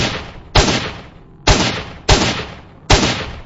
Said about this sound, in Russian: Тогда я начал пускать одну пулю за другой, видя только ствол его винтовки.